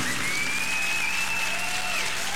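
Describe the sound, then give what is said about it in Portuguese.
Applause for Our Lady during a Catholic church service: continuous, dense clapping from the audience, steady and even in loudness from start to finish. “Uma salva de palmas a Nossa Senhora! Viva Nossa Senhora!”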